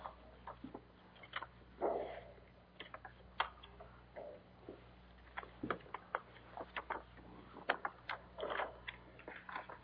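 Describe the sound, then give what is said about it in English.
Crinkly rustling of a folded object being opened out after being folded small to fit in a pocket: many faint, irregular crackles and ticks, with no voices. “Anybody see what this might be when we get it unfolded? I had to fold it up so I could get it in my pocket.”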